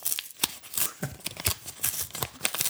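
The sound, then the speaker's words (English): Paper envelope being torn open by hand, a rapid run of sharp, crisp ripping and crinkling bursts spread irregularly over a few seconds, with no voices. “I never normally open envelopes like this, but for the drama of the sound, I'm going to open it like this.”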